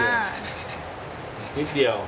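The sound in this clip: A thin piece of softwood is hand sanded, producing a continuous dry, scratchy rubbing with a couple of stronger strokes near the end.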